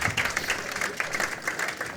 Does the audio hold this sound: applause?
yes